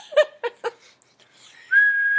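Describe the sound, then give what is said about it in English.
Whistling by a person standing in for a party whistle effect: one steady, high, held note that runs to the end, after a few short vocal bursts. “we're too cheap to afford sound effects. You get my whistle.”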